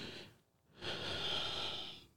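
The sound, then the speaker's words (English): A single deep breath, a long, soft, breathy rush lasting over a second. It follows a brief quiet pause and is heard alone, without talk. “You know, I had to take that breath.”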